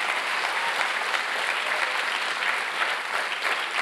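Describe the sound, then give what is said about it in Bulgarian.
A church audience applauds during a sermon with dense, continuous clapping that holds a steady level throughout, with no single voice standing out. “О, ако ръкопляскаш, ръкопляскай, като че наистина вярваш.”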